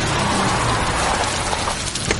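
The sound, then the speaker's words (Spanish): Heavy rain pours outside a car as a dense, steady hiss fills the whole stretch, loud and even throughout, with no voices. “Llueve copiosamente.”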